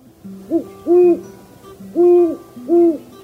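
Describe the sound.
Deep, soft hooting of a great horned owl in late-winter nesting season: a rhythmic series of low, resonant hoots, with three loud, drawn-out notes and quieter shorter ones between them.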